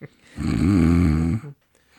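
A person imitates a snore, pretending to be asleep. A single long, low, buzzy snore lasts about a second and is followed by quiet.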